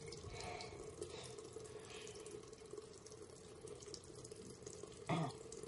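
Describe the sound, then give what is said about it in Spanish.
A running tap pours steadily as hands are washed under it in a bathroom, a soft, continuous hiss of water with a brief louder splash near the end. “Jake se lava las manos en el baño”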